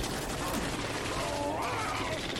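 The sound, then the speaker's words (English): Dense video-game gunfire rattles continuously as a steady, loud barrage of overlapping shots with no pauses across the whole stretch. “Stop shooting me!”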